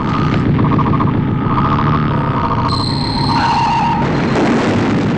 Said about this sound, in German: Wir übertrugen den Probelauf der Triebwerke des Kosmokrators.